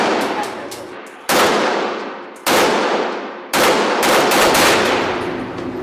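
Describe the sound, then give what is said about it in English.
Gunfire from a firearm switched to full automatic: loud, sharp shots with long ringing tails, then a rapid burst of closely packed reports. “If you pull a little bit, one shot. If you pull all the way, it's full auto.”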